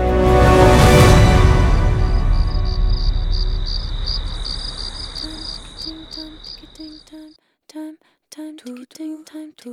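Crickets chirp in fast, steady pulsing bursts, first beneath a loud swelling wash of noise that gradually fades, then alone and clear with brief irregular gaps between the trills.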